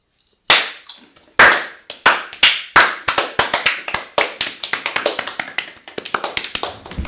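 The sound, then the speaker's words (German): Hands clapping for an audience, sharp separate claps that begin sparse and spaced, then quicken into a faster, denser run of many claps, each one cracking and decaying quickly. “Alle mal klatschen.”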